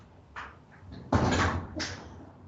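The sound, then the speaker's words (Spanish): A door sounds, three short knocks and rattles, the middle one loudest, quiet overall and with no talk. “Ahí sonó la puerta. Ahí sonó la puerta.”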